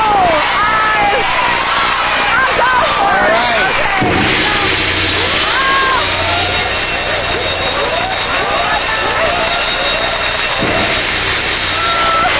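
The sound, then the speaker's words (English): An exploding whoopee cushion sound effect plays on a TV game show: a loud, dense, noisy wash fills the whole stretch, threaded with many sliding whistle-like swoops, and the level stays steady throughout. “Exploding whoopee cushion.”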